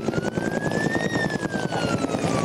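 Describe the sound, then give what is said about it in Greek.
Firefighting helicopters drop water over a burning pine forest with a fast, rhythmic thudding rotor beat. A whining turbine tone rises and then falls above it. “Είναι η χαρακτηριστική ήχη από τις επιχειρήσεις σε πλήρη εξέλιξη, εναέρια μέσα, ελικόπτερα τα οποία επιχειρούν και πραγματοποιούν ρήψεις νερού αυτή την ώρα”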